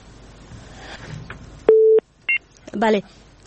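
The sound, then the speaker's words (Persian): Telephone line tones as a listener calls in to a live call-in show: a loud steady held tone, then a short beep, then a brief warbling burst, following faint talk. “شنونده فکر کنم پشت خط هستن و بعض تماس ها هم داریم.”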